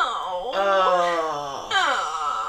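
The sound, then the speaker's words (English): A voice imitates a character's whining with drawn-out, nasal, moaning wails whose pitch wavers and slides downward, fairly loud and continuous, breaking briefly before a second whine starts. “I just want to talk about her whining, because we haven't talked about that yet.”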